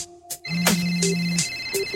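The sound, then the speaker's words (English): A telephone rings with a bright electronic tone, several short chirping pulses and a sustained low beep over two seconds, fairly faint, with no talk over it. “Hey, your phone's ringing.”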